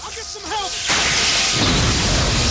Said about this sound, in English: He reaches out for two levers and pulls them down. High-voltage electricity flies through him as everything around him explodes.